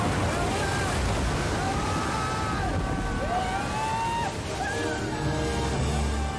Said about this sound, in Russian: Волна закручивается, они летят внутри нее.